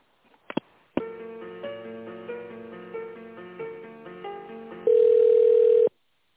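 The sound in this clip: Telephone line tones while an office call is being transferred: a couple of clicks, then a thin electronic melody of stepped notes, ending in a loud, steady, unbroken tone lasting about a second.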